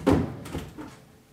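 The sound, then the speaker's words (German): A honeycomb frame pulled from a beehive box full of honey gives one firm wooden knock, then a couple of softer scraping bumps that fade out. “Als erstes machen wir mal eine optische Kontrolle, ob der Honig auch reif ist. Da kann man sich mal eine Honigwabe ziehen.”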